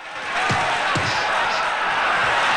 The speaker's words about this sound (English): A kickboxing fight. The spectators cheer.